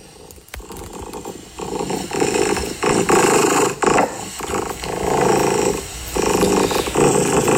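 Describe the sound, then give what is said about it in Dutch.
A contented cat purrs steadily and close, a low rumbling buzz that swells and eases in repeated breath cycles with brief dips between them; no voices. “Dit is het geluid van mijn kat. Ja, dat is een heel goed geluid. En een heel tevreden kat, kunnen we wel concluderen.”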